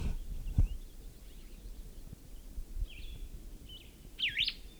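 A male bird sings while building its nest, with a few faint, high chirps and a quick warbled phrase near the end over a soft rumbling background.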